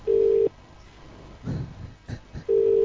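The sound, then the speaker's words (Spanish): A telephone ringing tone on an outgoing call to England sounds as two steady, single-pitched low tones, one at the start and one at the end. Faint brief noises fill the quieter gap between them. “Descuelga el teléfono, por lo menos. Ya está, estamos llamando, a un señor.”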